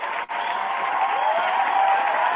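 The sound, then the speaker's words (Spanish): Applause sound effect: a dense, muffled wash of clapping that runs steadily throughout, broken only by a brief drop near the start. “Y después un aplauso, pues estuvo bien.”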